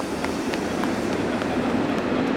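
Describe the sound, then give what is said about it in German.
A delayed regional express train pulls in at a station platform, a steady loud rumbling roar with faint, regularly spaced clicks running through it. “Auf Gleis 3 fährt ein der verspätete Regionalexpress nach Nauen, Abfahrt 14:07. Da ist ja unser Zug.”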